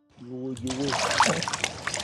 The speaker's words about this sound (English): Dunking each other.